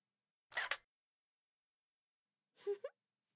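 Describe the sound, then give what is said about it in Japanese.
A camera shutter taking a photo: two short, crisp mechanical clicks separated by about two seconds of silence, the second slightly longer and with a tonal whir to it. “ああそうそう、ちゃんと写真に収めてあげなくちゃね。はい、チーズ。”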